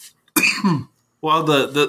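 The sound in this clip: Coughing and throat clearing from a person, in two rough, forceful bursts split by a short silence, the second burst longer and fuller.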